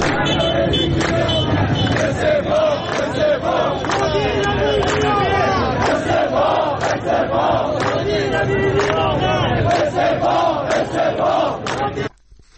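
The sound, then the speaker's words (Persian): Protesting bus drivers and workers of the Tehran bus company union chant in Tehran, a loud crowd shouting together in steady rhythmic bursts over dense background noise. The noise continues throughout and cuts off sharply at the very end. “صدای رانندگان و کارگران سندیکای کارگران شرکت واحد اتوبوسرانی در تهران را”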